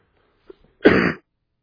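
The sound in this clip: A single short, rough throat clearing, preceded by a faint click, with silence around it and no talk.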